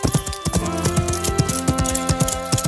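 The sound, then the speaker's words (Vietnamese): Horses ridden away from a giant's cave clip-clop in a quick, steady run of many hoofbeats at moderate loudness, with no talk over them. “Họ lên ngựa và rời khỏi hang động của tên khổng lồ.”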